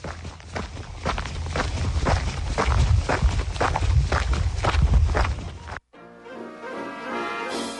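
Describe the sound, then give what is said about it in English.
Footsteps of people walking: many crisp, evenly spaced steps in a steady rhythm for about six seconds before they stop abruptly, followed by a quieter sustained tonal sound. “Come on, let's get back to walking.”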